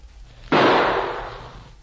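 A single gunshot fired at an approaching man: one sharp, loud crack that bursts out suddenly, then fades gradually over about a second, with no voices.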